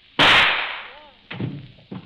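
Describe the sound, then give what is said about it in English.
A single gunshot in a radio drama as a woman shoots herself: one sharp, loud crack that rings and fades over about a second. “Shot herself.”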